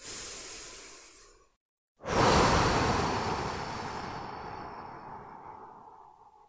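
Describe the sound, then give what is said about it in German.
Deep, deliberate breathing during a guided relaxation exercise: one breath fades out, a short silence follows, then a louder, long, airy breath swells and slowly trails away. “Im ersten Schritt atmest du ein paar Mal ganz bewusst und tief ein und wieder aus.”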